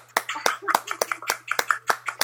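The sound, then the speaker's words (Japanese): A small group claps in a steady rhythm, the sharp individual claps landing about every third of a second, while voices talk over them. “もうなんか拍手”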